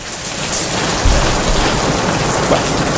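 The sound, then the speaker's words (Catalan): Steady rain for an incoming call of weather: a dense, continuous hiss of drops falling on a surface, loud and even throughout with no voices. “Podem fer que plogui una mica, sisplau?”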